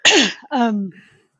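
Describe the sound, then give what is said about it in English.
Two harsh, voiced coughs in quick succession, each trailing off with a falling pitch, loud and alone. “I'm sorry, I just got a cough.”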